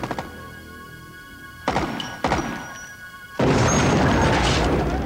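Sniper rifle shots fired from a tower in a film: a few heavy, booming bangs in quick succession, followed by a loud, sustained rushing roar.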